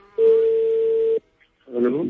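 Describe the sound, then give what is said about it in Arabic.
A telephone tone as a call is placed to a listener of a radio programme: one steady, pitched tone lasts about a second, then a voice begins speaking. “طيب لين تتصل الآن بهذه المستمعة.”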